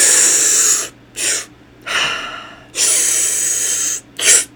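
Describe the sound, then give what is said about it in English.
Breathing exercise with a big inhale, a short sharp sip of air and a fast exhale: loud, airy bursts of long and short breaths in an uneven, repeating rhythm, heard alone. “So it's a really big first inhale. And then a sharp inhale after that, like a little sip. And then out. And we're going to do it fast on the exhale.”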